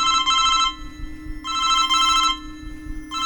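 A mobile phone rings with an electronic ringtone: bright, buzzy tone bursts repeat in short pulses with brief gaps, over a steady low hum. No one speaks.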